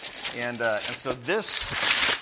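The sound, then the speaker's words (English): Gift wrapping paper is torn open with crinkling, rustling bursts of noise while someone keeps talking over it. “I'm not sure how you guys can hear me while I'm tearing.”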